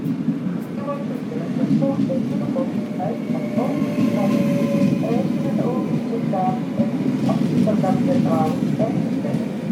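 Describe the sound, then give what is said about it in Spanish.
A train rumbles steadily as it arrives in Amsterdam, with a dense low roar, scattered clicks and faint tonal squeals, while voices talk faintly over it. “Y agárrense, porque nuestro tren está llegando a Ámsterdam.”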